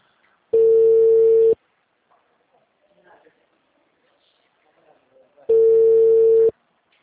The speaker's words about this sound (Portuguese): Eu tava falando com uma coroa aqui, caiu a ligação, ela nem quer atender mais.